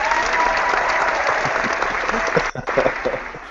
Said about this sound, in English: I wasn't expecting an actual, loud, live audience there.